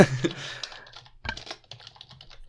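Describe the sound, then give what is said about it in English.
Typing on a computer keyboard while entering a pick during a wrestling fantasy draft. Rapid, crisp key clicks come in two loud bursts separated by a short pause, with no voices. “And I'm typing it in the wrong place.”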